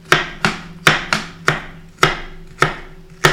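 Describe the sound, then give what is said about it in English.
Knife chopping food in a kitchen where fettuccine and soup are being cooked: eight sharp, evenly paced chops, each a crisp thud on the board that rings briefly before the next, with no voices. “Listen to that chop. Mine's gotten better. It was very violent at first.”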